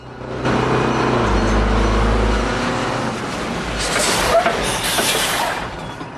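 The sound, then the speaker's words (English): A bus drives down a ramp toward a level crossing, its engine giving a steady low rumble with a rougher, hissing wash building later. No one talks. “He does a U-turn, so the bus is facing back down the road. Danko and Ridzik's bus drives down a ramp towards the level crossing.”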